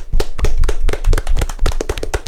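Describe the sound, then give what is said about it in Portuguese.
Audience clapping at a live Portuguese-language event to welcome a cameraman, loud and dense with sharp, irregular claps overlapping throughout. “Palmas pro Igor Nascimento”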